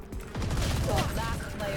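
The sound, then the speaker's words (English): Gunfire in a shooter video game: a dense, rapid volley of low, rattling shots that swells after a short opening and then keeps up as a busy, crackling barrage to the end. “You still had quite a few bullets left in your gun right there. You didn't have to reload.”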